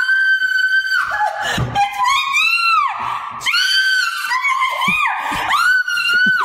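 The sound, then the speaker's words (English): A woman screams at a spider in a basement: shrill, piercing shrieks that keep coming in a continuous run of loud, high-pitched bursts with hardly a pause. “Here's a sound of my wife reacting to a spider.”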